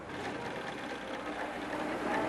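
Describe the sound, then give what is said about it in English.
A sewing machine stitching garment seams runs with a steady, continuous whirring hum for the whole stretch, fairly faint and without breaks. “you just keep sewing and make sure the seams are matched up”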